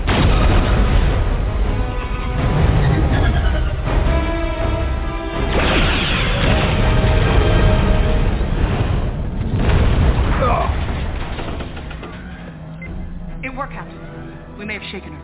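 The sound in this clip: Sci-fi photon torpedo being fired and exploding: heavy, continuous rumbling booms and crashing bursts that fill about fifteen seconds, easing slightly toward the end, with voices talking over the effects.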